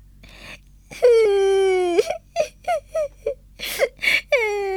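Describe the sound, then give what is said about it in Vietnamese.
A young girl cries in a story, starting with a long, wavering wail, then breaking into a run of short, choppy sobs and ending on another rising cry. “Jolly bắt đầu khóc.”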